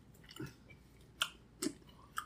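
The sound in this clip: Crunchy chewing of spicy sweet tofu jerky, an artificially flavored bean curd snack served on small skewers. A few distinct crisp bites stand out over quieter mouth sounds, faint and without talk.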